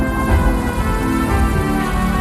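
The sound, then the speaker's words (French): Rain at the start of a song, a steady, dense hiss of falling rain mixed with sustained musical tones, loud and continuous throughout. “Il y a déjà de la pluie au début et après ça chante.”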